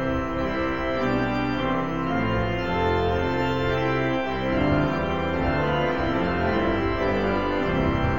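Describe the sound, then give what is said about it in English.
Full church pipe organ in a Lutheran church, with all flutes, principals and reeds drawn, plays loud sustained chords. The thick, steady sound shifts slowly from chord to chord, with no voices. “So we're going to turn on all the flutes and all the principals and all the reeds. We're going to put it all down and let it all rip. And it sounds something like this.”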